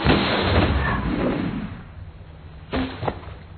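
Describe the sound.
A rifle shot fired at a target 500 yards away: a loud, rough report that rolls and fades over about two seconds, followed by two short, sharper thuds.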